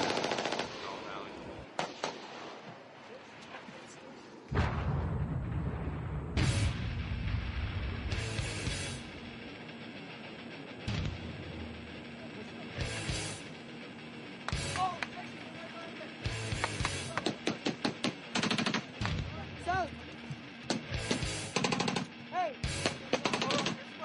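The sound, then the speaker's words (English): Gunfire during a big firefight in the Korengal Valley: many sharp rifle shots and rapid machine-gun bursts crack out irregularly, growing denser toward the end, with voices underneath. “Firefight. Yeah. Big. Packing up rounds.”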